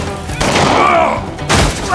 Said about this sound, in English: The peacemaker bucked in his hand as Frank returned the fire.